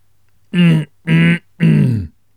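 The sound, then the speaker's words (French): Three short, dry, throaty coughs from a man with a parched throat. They come in an even rhythm and are fairly loud, each a rough voiced burst. “À force de sécheresse au fond de sa gorge, Popraquin s'était mis à toussailler.”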